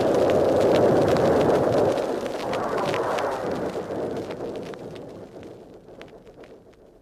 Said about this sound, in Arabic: هو سمع انفجار كأنه بركان، وارتج المكان وامتلأ بالدخان